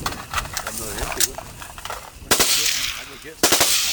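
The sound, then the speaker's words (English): Automatic rifle fire from AK-47s and M16s shooting at pumpkins scattered in a field in the evening: several sharp, loud bursts of rapid shots, with men's voices talking between the bursts. “those AK 47s, M16s using pumpkins they'd scattered about in a field as targets.”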